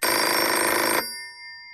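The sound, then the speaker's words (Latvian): A telephone rings in one loud continuous burst of about a second, then cuts off abruptly, leaving only a faint lingering tone. “Bet tad atkal ieskanas telefons.”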